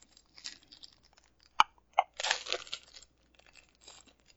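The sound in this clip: A pack of trading cards being torn open: light crinkles, two sharp snaps of the wrapper, then a longer ripping tear and softer rustling of foil and paper, all fairly quiet.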